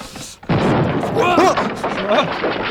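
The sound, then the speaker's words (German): A clockmaker's bomb goes off in a vault with a sudden blast that rolls into a loud, sustained rumbling roar. Voices call out over the din. “Kein Grund zur Panik, Jungs. Das war nur die Bombe des Uhrbauers.”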